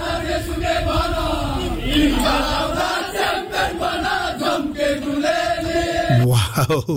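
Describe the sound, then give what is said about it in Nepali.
Loud crowd cheering and shouting during a dance and song performance by army company troops at a competition celebration, a continuous wall of voices with rising whoops that swells and dips before a brief break near the end. “Okay एकदम दाजुभाइहरूको नाचगान cheering this is वाह.”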